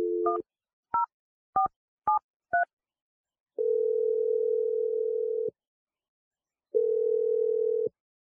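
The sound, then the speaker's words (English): Telephone dialing for an outgoing call: a brief tone, then four quick keypad beeps, then two long steady ringback tones with a pause between them. The tones are clear and stand alone, with no voices. “All right, well, let's just give her a call. We'll see what she has to say if she answers.”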